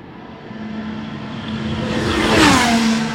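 A Formula One car speeds past on the first corner at Silverstone during pre-season running, its engine roar building to a loud peak and then dropping in pitch as it goes by.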